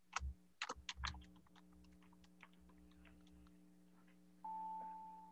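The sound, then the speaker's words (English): Typing on a computer keyboard: a quick burst of loud clicks, then fainter scattered taps over a steady electrical hum, ending in a sustained electronic beep. “I can type it.”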